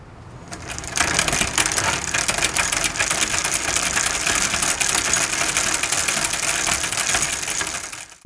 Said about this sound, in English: Let's spin the magic story wheel.